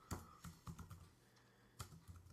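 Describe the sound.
Typing on a computer keyboard: a quick run of faint, uneven keystrokes, a short pause, then another brief burst of clicks.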